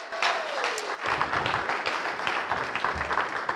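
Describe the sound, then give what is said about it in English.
Applause from a church audience welcoming a speaker to the front: steady, dense clapping that fills the whole stretch at an even loudness, with no talk over it. “I want you to put your most enthusiastic hand together and welcome for the first time Jonathan Ogilvy”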